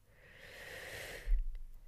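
Deep breathing through the nose: a single long, soft airy breath that gradually swells in loudness, ending with a slightly stronger rush of air.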